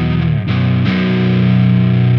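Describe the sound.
Electric guitar on a clean tone with a little gain from a clone overdrive pedal, ringing sustained chords that change twice early on, loud and steady with a slightly gritty edge.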